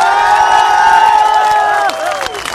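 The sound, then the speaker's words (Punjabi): Crowd cheering at a live stage show, loud sustained shouts and whoops from many voices, some sliding down in pitch near the end. “ਇੱਕ ਵਾਰੀ ਉਹਦੇ ਜਿਗਰੇ ਲਈ ਤਾੜੀਆਂ ਮਾਰ ਦਿਓ।”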